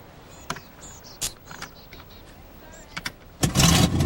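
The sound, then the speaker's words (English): An old motorhome's engine starts after someone works under the dashboard. A few scattered clicks and knocks are followed near the end by a sudden loud, broad roar as the engine catches and runs. “The motorhome starts up.”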